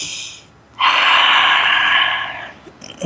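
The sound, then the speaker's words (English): A deep breath taken during a guided relaxation exercise: a loud, airy, steady rush lasting under two seconds after a quiet start. No talk. “Another deep breath.”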